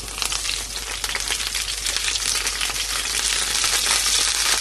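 Zucchini slices frying in a pan give a dense, steady sizzling hiss with fine crackles, holding loud throughout and swelling slightly toward the end, with no talk.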